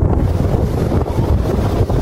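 Strong wind by a ravine more than 20 metres deep in São José de Ribamar buffets the microphone with a loud, steady low rumble and uneven gusty surges, no voices.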